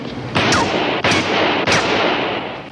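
Three loud gunshots during a confrontation with bank robbers. The sharp blasts come at a fairly even pace, and each trails into a sustained, roaring wash of noise, with no voices.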